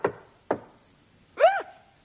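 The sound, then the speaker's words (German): Two sharp knocks on a workshop door sound half a second apart, followed by a short voiced murmur. “Plötzlich klopfte es an die Tür.”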